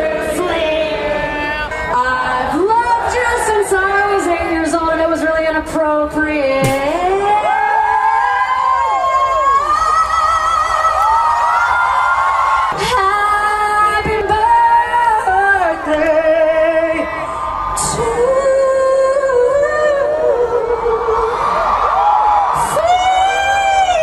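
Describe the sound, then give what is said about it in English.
A festival crowd at Austin City Limits sings Happy Birthday to Flea on his 60th, led by a singer; many voices carry a loud, sustained melody, with whoops and cheers mixed in. “down at Austin City Limits led the crowd in a happy birthday.”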